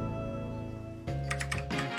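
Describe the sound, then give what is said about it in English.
Quiet typing on a computer keyboard, entering a zip code for an online search: a few quick keystrokes clicking over a steady low hum in the second half. “Just typed in my zip code and boom.”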